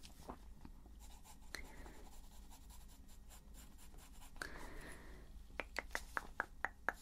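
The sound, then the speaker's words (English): Pencil scratching across paper while drawing a rough preliminary sketch, faint and soft, with uneven strokes at first, then a quick run of short, sharp ticking strokes near the end. “As I said, this is really a preliminary sketch, so it really isn't going to be very detailed at all, actually.”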